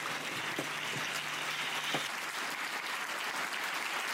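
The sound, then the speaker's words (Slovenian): Applause fills the whole clip as a continuous, even wash of clapping. A faint low tone sits beneath it for a moment. “In aplaus. Aplaus. Bravo!”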